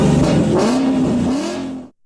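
A Ford car engine revs loudly and steadily, its pitch climbing early, then holding and wavering slightly before the sound cuts off abruptly near the end.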